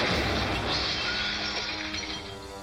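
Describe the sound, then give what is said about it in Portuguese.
Ice breaks apart in a dense, loud crashing and crunching roar that holds steady and slowly fades. “Quebrou? Quebrou? Quebrou o gelo.”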